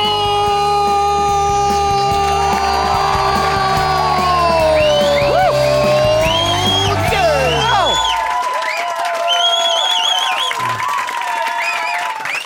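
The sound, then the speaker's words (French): A live audience whistles and cheers at an evening radio show. Shrill, sliding whistles and shouts rise over music playing underneath, and the music cuts out partway while the whistling continues. “Hey! Il y a du monde qui siffle à soir. Ouais, c'est nouveau.”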